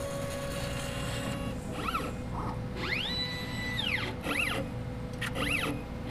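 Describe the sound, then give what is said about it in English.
An isotope ratio mass spectrometer's autosampler needle and freezing traps move up and down. Several whirring motor sweeps rise and fall in pitch, one long and others short, over a steady mechanical hum. “The needle just moved on the auto sampler away from the vial, so now the different traps are moving up and down and thawing the sample. The machine is an isotope ratio mass spectrometer.”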